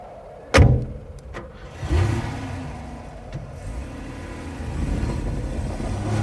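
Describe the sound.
A car drives out onto ice. A heavy thump comes first, then a second one, and then the engine rumbles and revs steadily. No voices are heard.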